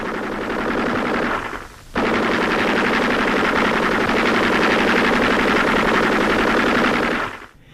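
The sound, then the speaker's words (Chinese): Machine-gun fire in a radio drama battle scene after a fuse detonates: a short burst, a brief pause, then one long, loud, continuous stream of rapid shots that cuts off abruptly. “导火索很快被引爆了，敌人也开始疯狂的射击”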